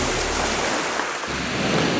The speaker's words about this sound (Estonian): Tõepoolest, kui olen käivitanud siin oma juttu taustaks mõnusa merelaine